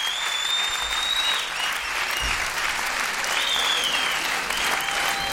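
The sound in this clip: A festival audience applauds at the Banlieue Bleue festival in the Théâtre Louis Aragon, Tremblay-en-France, dense steady clapping that fills the whole stretch without letting up.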